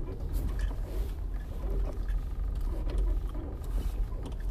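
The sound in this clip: Tire noise from a car, a steady low road rumble that stays fairly loud and even across the whole stretch with no clear breaks.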